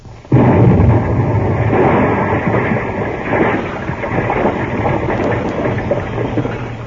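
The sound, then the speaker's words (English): An explosive blast, set off to free someone wedged tight in a tub, bursts in suddenly and loud, then rolls on for several seconds as a sustained roaring rumble with crackling. “I'm going to blast. Blast? Stand back.”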